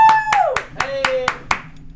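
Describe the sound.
A few sharp hand claps from people, unevenly spaced across two seconds, with a voice sounding underneath them.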